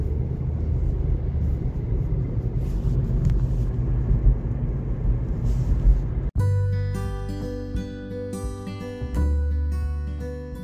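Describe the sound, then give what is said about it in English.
A car driving, heard from inside: a steady low road and engine rumble for about six seconds, then an abrupt cut to clear, sustained tones. “I'm just driving now again.”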